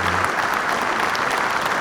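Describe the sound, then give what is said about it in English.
A short round of applause for a couple's 34th wedding anniversary: steady, dense clapping lasting under two seconds. “Round of applause.”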